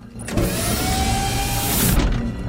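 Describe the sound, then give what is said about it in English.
Covers slide off rocket launchers mounted on top of a truck with a steady mechanical whir lasting well over a second, starting and stopping abruptly, loud and alone, with no voices. “The covers slip off the rocket launchers on top of the truck.”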